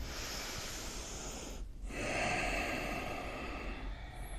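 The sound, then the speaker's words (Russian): Deep breathing in and out during a kriya exercise with arms raised: a long, airy breath with a soft hiss, then a brief pause, then another long breath. “Руки вверх, вдох, выдох.”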